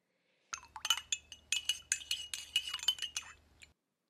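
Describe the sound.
Milk stirred in a jug gives many rapid, bright clinks against the sides, tumbling in an irregular rhythm for about three seconds before stopping, with no voices.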